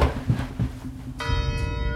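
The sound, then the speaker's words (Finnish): A church bell rings in a bell tower, its clear resonant tone beginning partway through after a low murmur and sustaining to the end. “juoksi suoraa päätä kirkkoon ja suoraa kellotorniin, jossa alkoi soittaa kelloja”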